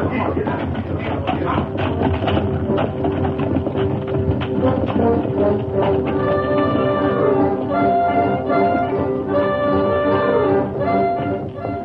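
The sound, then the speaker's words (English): Hoofbeats of a cavalry troop riding horses into a wooded mountain pass, a steady rhythmic clip-clop of many horses with music playing along from midway. “The troop rode into Glory Pass, each man on the alert studying the wooded slopes on either side.”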